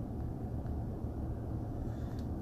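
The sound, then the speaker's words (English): A car driving down Main Street in Lansdale, a steady low engine and road rumble with a soft hiss above it, even and unbroken, with no voices. “Right before I pull up to the office here, I'm driving down Main Street, Lansdale”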